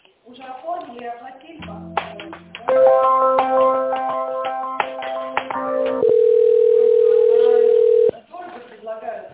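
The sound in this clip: Telephone tones while an office call is transferred: speech at the start, then a run of tonal sounds and a steady, loud single-pitch tone lasting about two seconds before voices return.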